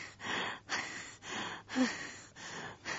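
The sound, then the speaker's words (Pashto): Rapid breathing from a patient during a doctor's examination: about six quick breaths in an even, regular rhythm, each a soft rushing puff of air, moderately loud. “ښه دی ډاکټر صاحب، سا دې ژر ژر وباسه.”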